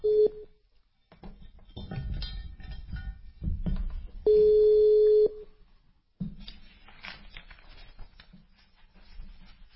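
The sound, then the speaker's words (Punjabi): A telephone call is placed: a short electronic tone, some low handling noise, then one steady ringing tone lasting about a second, followed by faint line noise. “ਮੈਂ ਤੁਹਾਨੂੰ ਕਾਲ ਕਰ ਦਿੱਤੀ ਜੇ।”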